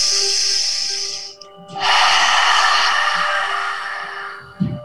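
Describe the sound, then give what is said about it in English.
In a guided breathing exercise, a deep breath is drawn in through the nose as a soft hiss, then after a short pause a longer, louder breath is pushed out through the mouth, over a faint steady tone. “And then a big breath in through the nose. And then we're going to exhale everything out through the mouth.”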